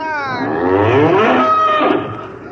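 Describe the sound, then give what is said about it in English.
Cattle on the plains mooing, one long, loud, drawn-out low moo that wavers in pitch and fades at the end. “Oh, just poking around the cows.”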